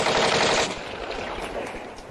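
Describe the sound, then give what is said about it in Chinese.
Rapid machine-gun and rifle fire crackles in a dense, noisy burst that is loudest in the first moments and then continues as a steady, slightly softer rattle of shots, with no voices. “开枪！开枪！ 快开枪！”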